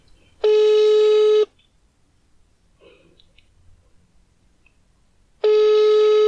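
Ringing on a telephone line that goes unanswered: two buzzy, harmonic-rich ring tones of about a second each are separated by roughly four seconds of near silence. The second tone is cut off at the end.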